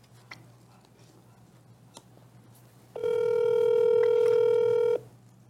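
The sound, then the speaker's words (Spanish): A telephone tone sounds as a call is placed: a single steady, moderately loud tone lasts about two seconds over a low hum and faint ticks. “A ver, ¿a quién le vas a marcar, querido? Vamos a llamar a Palazuelo.”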